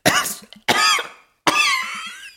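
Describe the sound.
An unwell old man coughs in three harsh, loud bursts. The first two come close together and the third is longer and trails off, with no talk.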